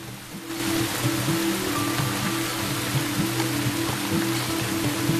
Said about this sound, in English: Rain lashes the land. The slate-grey sky and raindrops pattering down on green foliage.